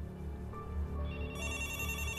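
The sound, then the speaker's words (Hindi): A telephone rings with a continuous electronic ringtone, a steady warbling tone that shifts to a brighter, higher pattern partway through, moderately loud and heard alone. “जरा phone उठाएं”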